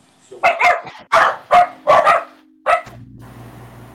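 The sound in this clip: Dogs barking inside a hospital: a quick run of sharp, mid-pitched barks in a few clustered bursts, followed by a brief low hum and quieter background noise.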